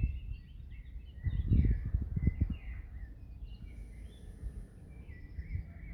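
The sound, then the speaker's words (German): Birds singing: faint, scattered high chirps and short warbles throughout, over a low background rumble. “Dass die Stimmen der Vögel immer mehr werden.”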